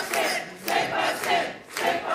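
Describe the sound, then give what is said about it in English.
A dense crowd cheers and roars at a Quebec separatist election-night party, the shouting swelling and easing in loud waves as results come in. “Celebrations at a party for Quebec separatists. They're watching election results come in on October 5th, 2026.”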